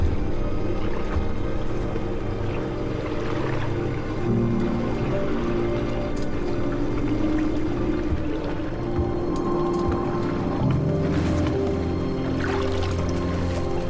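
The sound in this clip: Water washing around the hull of a sailing yacht on the open ocean in early morning. A steady, continuous wash with a low rumble runs evenly throughout.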